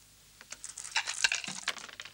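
Dice rolled during a board game about conquering Gaul make a quick, faint clatter of hard clicks and taps.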